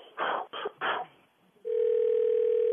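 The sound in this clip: A steady telephone dial tone sounds while placing a three-way call. The even, continuous hum starts after a few short, muffled bursts and holds unchanged to the end.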